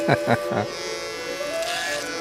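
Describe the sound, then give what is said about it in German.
Steady, even buzz of an electric hair clipper cutting a man's hair short to 12 mm in a barber's chair, a voice speaking briefly over it at the start. “Während er den Haarschneider schwingt”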